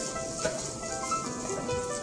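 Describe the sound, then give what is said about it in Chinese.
Squid stir-frying in a hot wok, the oil crackling and sizzling in a steady, dense hiss of fine pops throughout. “然后你会听到锅子里面的那个声音很大，哔哔叭叭的声音很大，然后你会注意到它会在上面跳动，好，这个鱿鱼会跳。”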